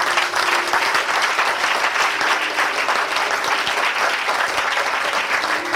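Dense, continuous applause from an audience acclaiming the Lord in church, with many hands clapping at a steady, loud level for the whole stretch.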